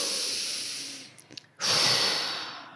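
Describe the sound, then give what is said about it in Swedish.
Slow, deep breaths taken as a relaxation exercise: two long, airy, hissing breaths separated by a short pause, the second louder and fuller than the first. “Och det snabbaste sättet är ju att ta tre långsamma andetag. Mm. mm. Och det Djupa man andetag.”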